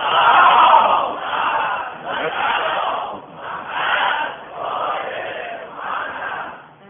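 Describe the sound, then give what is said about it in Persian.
An audience recites salawat together, many voices chanting loudly in unison. The chant rises and falls in several rhythmic phrases separated by short breaths. “برای اینکه یقین بدونم که از خودم که شفیع من میشید، اونا که نماز شب هیچ وقت نخوندن یه صلوات بفرستن.”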